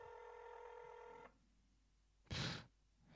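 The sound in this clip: Steady electronic ring tone of an outgoing phone call that goes unanswered. It holds for just over a second, then stops, and a brief noisy burst follows after a pause.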